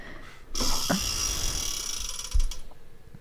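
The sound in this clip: Ratchet clicking of a spinning letter wheel in a word game, a fast rattling whir that runs for about two seconds and breaks into distinct clicks near the end before stopping.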